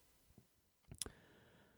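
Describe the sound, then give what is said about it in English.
A computer mouse is clicked on a web link: one crisp, quiet click over near silence, with a fainter tap a moment before. “There's another link here that says during a flight, you can click the link called during a flight.”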